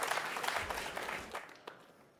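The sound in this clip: Faint applause from a conference audience welcoming a speaker to the stage. Dense clapping is strongest at the start and thins out as it fades toward the end.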